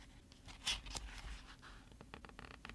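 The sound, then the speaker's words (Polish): Gentle scraping at a door at night as a white envelope slides through the gap beneath it: faint, soft papery brushing and scratching strokes, a few separate rubs, with no talk. “I wtedy wszyscy usłyszeli delikatne skrobanie. A w szczelinie pod drzwiami pojawiła się biała koperta.”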